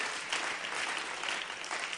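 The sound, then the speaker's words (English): A church audience claps in applause, a dense, steady patter of many hands that carries evenly throughout without breaks. “We just want to give the Lord a clap offering for these great people that are working alongside.”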